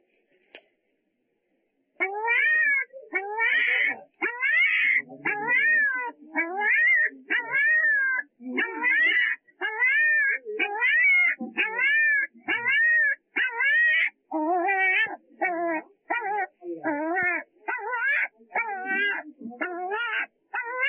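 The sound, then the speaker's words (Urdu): A puppy trapped behind its mother whimpers in pain. After a brief silence, a long run of many rapid, high-pitched, arching cries follows, tightly spaced and insistent. “یہ کتے کا ایک چھوٹا بچہ ہے جو کہ اپنی ماں کے پیچھے دب گیا ہے اور تکلیف میں مبتلا ہے”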